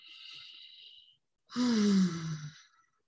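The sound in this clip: A deep breath during a guided meditation with hand on heart: a soft, airy inhale of about a second, a short pause, then a louder, voiced sighing exhale that tapers off.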